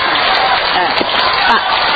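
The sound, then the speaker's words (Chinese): A church audience applauds loudly during a prayer service, giving a dense, continuous wash of clapping from start to finish with voices talking over it. “对，掌声把仇敌赶走，这夸胜，这是夸胜的掌声”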